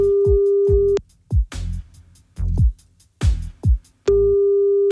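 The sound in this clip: Telephone line tone heard while calling back after a call was cut off: a steady, fairly loud electronic tone runs for about a second at the start and returns near the end, with a few short low bursts in the gap between.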